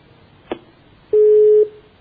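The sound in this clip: A telephone busy signal after a phone-in call disconnects: a soft click, then a single loud, steady mid-pitched beep lasting about half a second, with no voices.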